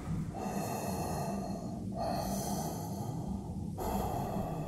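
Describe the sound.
Breathing through a connected oxygen supply: a steady, hissing airflow with three regular breath cycles marked by brief dips, the noise constant and unbroken by speech.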